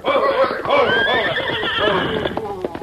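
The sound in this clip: A sorrel horse lets out a long, quavering whinny that wavers up and down in pitch, followed by a few scattered hoof clops.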